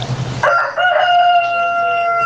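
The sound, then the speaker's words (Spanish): A rooster crows once in a long, loud, steady call that holds for nearly two seconds after a brief burst of noise. “Ese es un gallo.”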